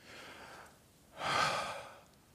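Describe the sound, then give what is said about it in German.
A deep breath taken alone: a quieter airy stretch, then a louder, longer rush of breath that fades away. “Tut das gut, wenn man tief durchatmen kann.”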